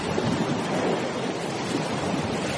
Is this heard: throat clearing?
no